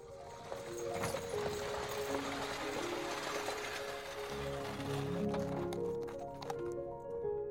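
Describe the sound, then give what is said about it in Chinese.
A horse-drawn carriage travels along, its hooves clip-clopping in a quiet, steady rhythm beneath soft background music. “灰姑娘乘着马车到了皇宫。”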